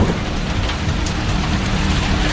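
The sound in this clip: Drizzling rain falls in a loud, steady, unbroken hiss that holds an even level from start to finish.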